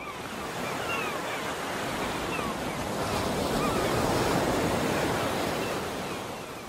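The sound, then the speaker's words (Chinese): Ocean waves wash onto the shore in a continuous roar of surf, mixed with wind noise that rumbles against the microphone. The rush swells gradually toward the middle and then eases slightly, with no voices. “听着海浪的声音”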